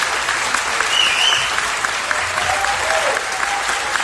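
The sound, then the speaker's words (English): A live concert audience applauds after a song: dense, steady clapping from a crowd that holds at an even level throughout, with no clear rise or fall. “And I enjoy knowing that I am in the audience that you hear applauding there. That's me applauding.”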